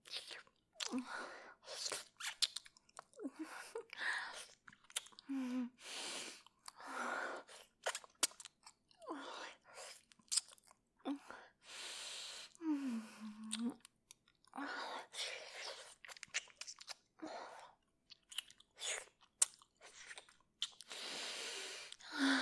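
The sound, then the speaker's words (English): Wet licking and tasting mouth sounds: many short, soft smacks and slurps in an uneven rhythm, faint and close, with no talking. “Oh, as I lick it, the scent only gets stronger.”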